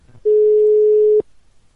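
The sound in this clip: Single ringing tone of an outgoing telephone call, one steady mid-pitched beep lasting about a second, then cutting off into quiet.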